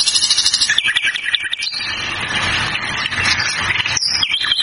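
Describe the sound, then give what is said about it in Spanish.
A nightingale sings loudly, opening with a fast run of pulsing notes and then moving into sustained, warbling phrases. “Este cantor nato es el ruiseñor. Mire qué lindo que canta.”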